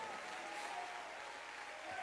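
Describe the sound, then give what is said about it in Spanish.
A crowd applauding during a sermon: faint, steady clapping that forms an even wash of noise throughout, with no distinct voices. “Dale un aplauso de victoria al Señor.”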